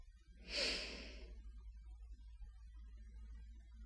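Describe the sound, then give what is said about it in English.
A single deep, audible breath taken during a guided relaxation exercise, a soft rushing burst of about a second followed by near quiet over a low hum. “Take a deep breath in and a breath out. A breath in and a breath out.”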